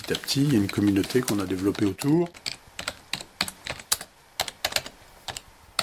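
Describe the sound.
Keys pressed on a computer keyboard, including the page-down key, heard as many sharp, irregular clicks of varying loudness after a short stretch of a person talking.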